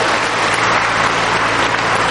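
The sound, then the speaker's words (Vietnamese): Loud applause from a church audience for children who read and sang the psalm response at a Lunar New Year service, a thick, even wash of clapping that holds unbroken from start to finish. “Hay thì cho một tràng pháo tay thật lớn thưa anh chị em.”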